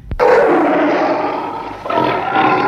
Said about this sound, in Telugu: కొద్దిసేపటికి ఒక సింహం అక్కడికి వచ్చింది.